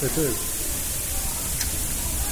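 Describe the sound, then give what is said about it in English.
An indoor sprinkler system sprays a fine mist of water into the air, a steady, even hiss that runs throughout, with a voice heard briefly at the start. “Yeah, the sprinkler. Sprinkler kind of system went off. Yeah, I'm looking up just above my camera now. Just on purpose, though. It's just doing a fine spray of water in the air. It's not really raining in here.”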